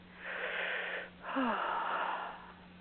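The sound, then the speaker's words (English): A deep breath drawn during a relaxation exercise for stress release, made of two long, breathy rushes of air with a short gap between them. A thin, whistling tone sweeps briefly downward near the start of the second rush. No voices are heard. “Now, let's take a nice breath in.”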